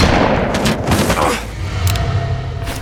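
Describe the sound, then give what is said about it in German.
Gunfire in a German-language audio drama breaks out as a rapid burst of loud, booming shots, then drops to a quieter rumbling tail. “Noch einmal schießt du nicht, Selby.”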